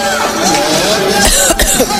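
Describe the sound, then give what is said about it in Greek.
Someone coughs and splutters as if choking, with a few rough, hoarse bursts amid dense, noisy sound. “Πνίγομαι εγώ τώρα, έτσι, δηλαδή τόσο έντονη εικόνα που πνίγηκα εγώ μέσα στο στούντιο.”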